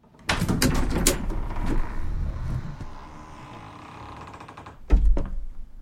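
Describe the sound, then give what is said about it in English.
A door opening in the attic of a house: a sharp knock starts a long rustling, scraping stretch that slowly fades, then a second loud knock comes near the end. “The door opens and Harry walks in, using a cane as a support.”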